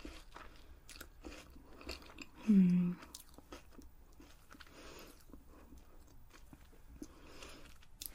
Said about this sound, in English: Okay, so this is the cream wafer. I love wafers, they're so nice.